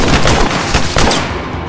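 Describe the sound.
Rapid gunfire crackles through a chaotic fight against thugs, sharp shots bursting in quick succession over a dense, noisy backdrop, loud throughout and easing slightly toward the end.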